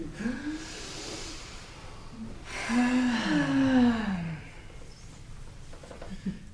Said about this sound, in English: How about everybody takes a big breath?